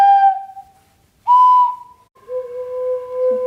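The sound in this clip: Children blow three wooden pipes one after another. Each gives a sustained, slightly breathy whistle tone, and the last pipe, the longest, sounds clearly lower than the first two.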